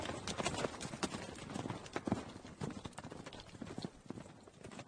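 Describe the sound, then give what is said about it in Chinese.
Horse hooves clop rapidly as a troop of mounted warriors gallops and charges on horseback, a dense, continuous run of many loud hoofbeats throughout. “那大队西夏武士奔已过去，见自己同伴被打，急忙调转马头冲了过来。段誉三人慌忙骑马向西逃去。”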